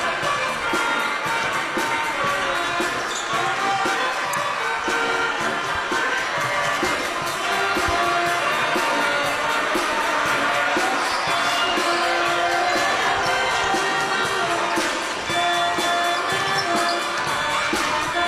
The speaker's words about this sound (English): Listening to the sounds of the Waterford Pep Band here tonight. Playing right below us.